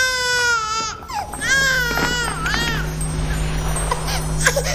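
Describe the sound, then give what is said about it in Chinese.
An infant cries in several loud, wavering, high-pitched wails over the first few seconds, then the sound settles into a quieter, steady background. “哎呀，是哪个在哭呢？哦，孩子，哪里来的？”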